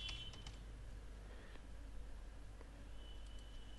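Typing a comment into a website comment form on a computer keyboard, heard as a few faint, scattered key clicks at an irregular pace over a low, steady background hum.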